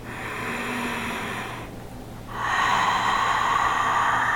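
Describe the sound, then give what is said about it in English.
Deep breathing during a guided relaxation exercise: a soft, airy breath, a brief pause, then a louder, longer open-mouthed exhale like a sigh of relief, steady and hushed with no talking. “So taking 2 more deep rounds of breath here. You can even open the mouth and a sigh of relief.”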